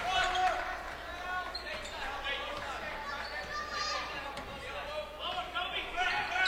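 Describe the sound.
Basketball dribbling on a court during a game, set against a steady wash of crowd chatter and voices throughout, with the individual bounces blending into the noise rather than standing out.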